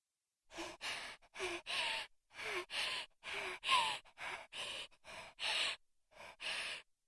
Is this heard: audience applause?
no

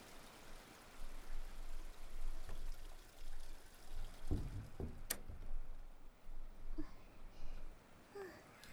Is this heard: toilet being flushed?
yes

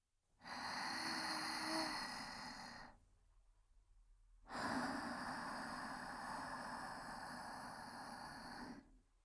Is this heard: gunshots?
no

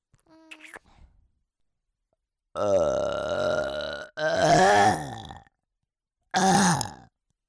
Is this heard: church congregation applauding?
no

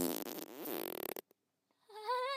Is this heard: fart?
yes

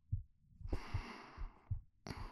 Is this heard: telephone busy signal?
no

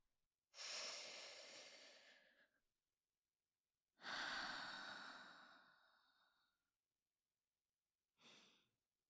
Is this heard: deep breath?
yes

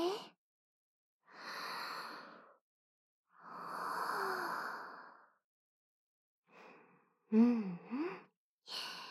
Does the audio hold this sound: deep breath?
yes

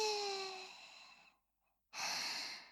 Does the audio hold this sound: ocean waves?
no

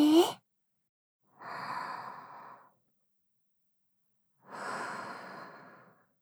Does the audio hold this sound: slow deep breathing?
yes

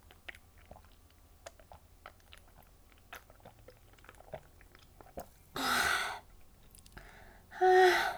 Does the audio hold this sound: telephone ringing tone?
no

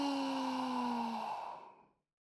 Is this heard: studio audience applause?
no

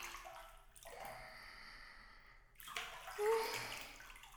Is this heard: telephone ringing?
no

